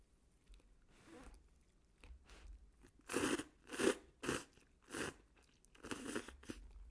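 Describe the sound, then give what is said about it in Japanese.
Someone eating instant cup noodles: a run of faint, irregular crunching bites and chewing, with many short bursts that grow stronger toward the middle and no talk. “美味しいわああ今日私王道のもうカップヌードルにしました”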